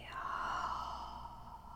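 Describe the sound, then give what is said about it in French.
One slow exhale during a breathing exercise: a soft, breathy sigh lasting under two seconds that fades gently toward the end. Nobody talks. “Inspirez par le nez. Et expirez.”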